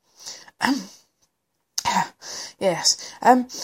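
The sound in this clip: A reader voices a short, rough throat clearing in two brief raspy bursts. After a pause, plain spoken words follow.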